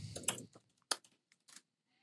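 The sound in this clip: A computer keyboard being typed on, a faint cluster of quick key clicks followed by a few isolated taps and a near-silent pause.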